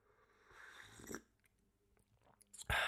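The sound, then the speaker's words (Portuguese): Tea sipped from a mug brings soft, wet mouth sounds and a brief burst in the middle, then a louder slurping gulp at the very end, with quiet between. “Estou a beber um chá numa caneca que diz Keep Calm and Have a Tea. E é isso mesmo que eu estou a fazer.”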